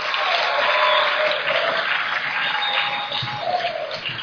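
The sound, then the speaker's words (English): Audience applause at a religious gathering: dense, sustained clapping from many hands, loud and steady throughout with no clear break. “Let's put our hands together for Jesus. Let's do it better. Is that the best we can do? Come on, keep on clapping.”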